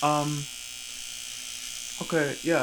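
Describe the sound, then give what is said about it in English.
An electric shaver shaving, a constant droning buzz with a bright high whine running throughout, while a voice speaks briefly over it at the start and the end. “I'll explain why I'm shaving.”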